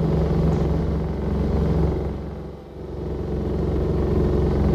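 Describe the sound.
Steady low engine drone of an aircraft circling over drifting ice floes, a radio drama effect. The rumble stays even and loud, sags briefly midway, then swells back to full strength, with no voices.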